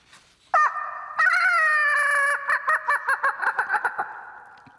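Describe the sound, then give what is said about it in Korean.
A person imitates a loud rooster crow. A long, ringing held call breaks into a rapid run of many short, pulsing notes that fade at the end. “그것도 그냥 닭이 아니었습니다. 마치 마이크를 잡은 것처럼 쩌렁쩌렁 울리는 닭.”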